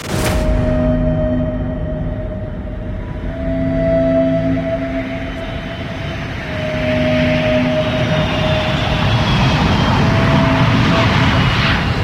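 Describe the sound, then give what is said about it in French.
An Air France Caravelle jet airliner accelerating down runway 21 at Ajaccio airport for takeoff: a loud, steady jet roar that holds throughout while a higher engine whine slowly builds. “L'avion prend progressivement de la vitesse et se met à filer sur la piste.”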